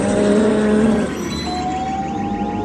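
Spaceship sound effect of a jump to light speed: a loud, steady electronic drone with sustained tones. The level dips slightly after about a second, and a new mid-pitched tone then enters and holds.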